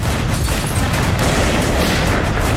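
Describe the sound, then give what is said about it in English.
Sniper gunfire during urban fighting on a city's west side, with soldiers and police engaging a handful of snipers: dense, loud, overlapping cracks and booms that continue throughout. “If that's what just a handful of snipers sounds like.”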